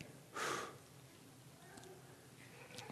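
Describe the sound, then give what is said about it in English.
A dry breath blown out in a single short, breathy puff of air near the start, followed by faint background hiss. “The dry breath can't be seen. You can hear it.”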